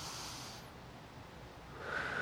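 Deep belly breathing, one slow demonstration breath: a soft, airy rush of air holds steady for about two seconds and swells slightly at the end. It is faint, with no talk.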